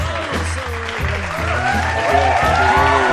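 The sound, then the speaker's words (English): Crowd noise fills the arena at a live UFC 152 mixed martial arts event, a continuous dense roar of cheering and clapping that holds steady throughout beneath the talk. “You can hear in the background. You can hear the crowd in the background.”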